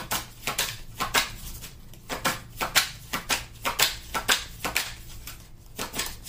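Playing cards being shuffled and drawn from a deck: many crisp snaps and flicks in a quick, uneven rhythm, fairly loud and with no talking.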